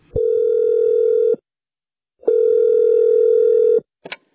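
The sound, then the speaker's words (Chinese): Telephone tone while someone calls a renovation company about a fallen kitchen ceiling: two long, steady low tones separated by a pause, then a brief higher blip. “别急别急，我呀给装修公司打一电话问问。”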